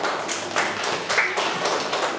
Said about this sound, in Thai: นักเรียนปรบมือให้กับตัวแทนนักเรียนค่ะ